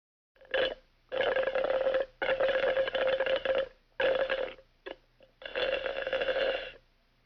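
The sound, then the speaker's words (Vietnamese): Juice is slurped through a straw in several separate pulls, each a steady, buzzy, gurgling tone with gaps of silence between them. One pull near the end is very brief. “Câu vừa rồi có thể hiểu là em gái tôi đang hút nước ép chụt chụt qua ống hút, giống như là đoạn âm thanh sau đây.”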